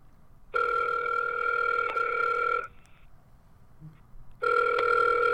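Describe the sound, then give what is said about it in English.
Ringback tone of an outgoing telephone call to Ontario: a steady electronic ring sounds for about two seconds, then a silent gap, then a second ring begins and continues to the end, with no voices. “Oh, there we go. We've got a call going to Ontario.”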